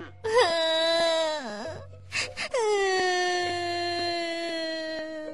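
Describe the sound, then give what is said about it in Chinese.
A child wails loudly in a long, high cry whose pitch sags at the end. A few short sobbing catches follow, then a second drawn-out, steady wail. “小鼠宝贝在外婆身边使劲儿地哭啊哭啊”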